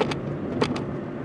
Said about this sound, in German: Ja, ich bin gerade mal wieder auf dem Weg zu meinen Eltern und fahre hier wieder über die Straße her